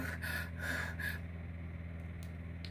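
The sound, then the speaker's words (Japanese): A big yawn, with a deep, breathy, gasping inhale in a few surges that tapers into quiet breathing, faint and alone. “やばいやばい本気あくびしちゃう足ピンして本気あくびしちゃう”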